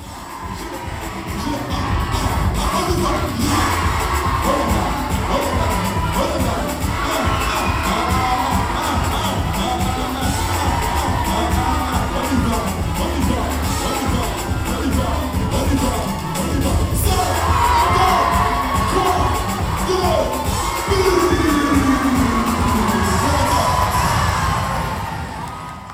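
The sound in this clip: A concert crowd cheers at La Cigale in Paris: a loud, continuous roar of shouts, whoops and cheering voices that stays dense and energetic with no pauses.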